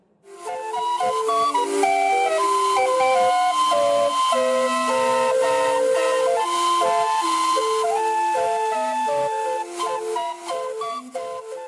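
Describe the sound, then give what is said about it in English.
A calliope plays a melody through steam-blown tuned whistles: bright, sustained, piping notes that step up and down over a constant airy hiss, loud and continuous for about eleven seconds. “And here's the sound a calliope makes.”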